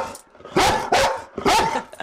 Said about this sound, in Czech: A jsou tady s námi i psí pomocníci. Co to je za plemeno, krásné hnědé? Jsou to dva Chesapeake Bay Retrievři, Vicky a Irbis.